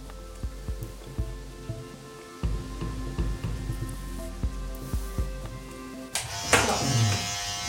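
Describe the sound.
Electric clippers buzz steadily while shaving a man's head for a tattoo on the back of the skull. Repeated scraping strokes pulse through the drone, and a louder rustling burst comes near the end.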